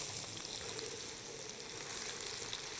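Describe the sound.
Food sizzling in a pan just after being flipped, seasoned with paprika; a constant, even frying hiss with no talk over it.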